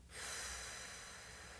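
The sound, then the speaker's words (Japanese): One deep, steady exhale during a guided relaxation breathing exercise. After a quick onset, the breath is released as a long, even rush of air that stays at about the same strength until the end, with no talk. “はい最後吸ってはい吐きましょ”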